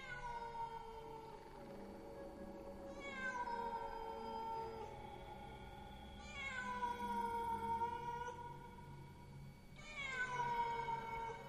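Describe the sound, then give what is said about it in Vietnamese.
Cats yowling mournfully, long wavering wails that swell in a few drawn-out cries, each starting high and sliding downward over a steady low background hum. “Trong không gian bây giờ vang lên những tiếng mèo gào kêu lên vô cùng thảm não. Tiếng mèo kêu làm cho người ta rùng mình, kinh tâm động phách, trong lòng phát lạnh.”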